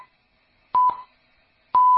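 Time signal beeps mark six o'clock on the radio: clean, mid-pitched electronic tones about a second apart, each starting with a sharp click, loud and alone against silence, the last one held longer.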